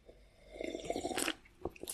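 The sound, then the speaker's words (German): Sipping a drink of Spezi cola-orange soda: a run of wet mouth and swallowing sounds with a crunchy, fizzy edge, moderately loud, followed by a few short clicks near the end. “Dann nehme ich mir mal einen Schluck von meinem Spezi.”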